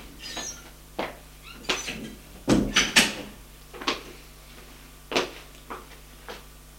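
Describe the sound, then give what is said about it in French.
Knocking on an office door and someone entering, heard as a few irregular sharp knocks and clacks of door handling, with a louder cluster of hits in the middle. “Frappe et entre.”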